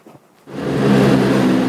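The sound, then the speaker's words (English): A military vehicle's engine near Bakhmut, heard as it drives toward the front lines. A brief quiet moment gives way to a loud, swelling engine roar that then holds steady. “We're going to get back in the vehicle, try to get a little closer to the front lines.”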